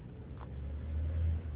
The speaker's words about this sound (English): I feel like you were blowing your fucking pipes too loud. Maybe his engine's blown out or something.